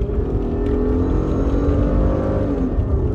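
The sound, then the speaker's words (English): Steady, loud engine drone from inside a Lamborghini driving on the road, a continuous low rumble with no breaks from start to finish. “So, we're driving. Yeah, you guys hear it, I think. Hopefully. Hope so.”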